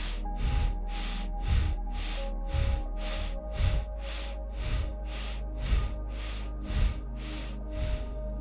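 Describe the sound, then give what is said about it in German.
Rapid rhythmic breathing through the nose during a breathwork exercise: many sharp, evenly spaced sniffing breaths pulse steadily over a soft sustained musical drone. “Und bring mal ganz langsam etwas Energie hinein, ein bisschen Intensität in diese hochfrequente, werdende Nasenatmung.”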